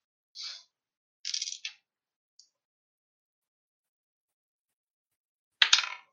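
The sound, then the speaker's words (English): Dice rolled for a tabletop game make a few short, bright clattering bursts separated by silence, the final clatter the loudest. “That's better. Finally, thank you. I switched dice. That's all I needed to do.”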